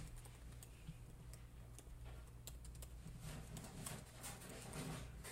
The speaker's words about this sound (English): type in Operation Northwoods